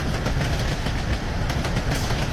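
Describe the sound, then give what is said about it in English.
An electric train on a mine railway hauling sulfur down to a harbor, heard as a steady, dense rumble with a loose rhythmic clatter of wheels over rail joints throughout. “Electric trains carried the sulfur from the mine down to the harbor in Utganger.”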